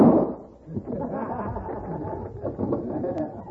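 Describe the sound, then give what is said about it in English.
A single loud gunshot bursts out at the start as a bandit shoots the driver during a robbery over gold in the baggage, followed by men talking. “He shot the driver.”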